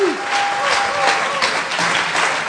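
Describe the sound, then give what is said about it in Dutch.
Audience applause at a church gathering, with dense, steady clapping from many hands that holds at an even loudness for the whole stretch. “Laten we eens een applaus geven.”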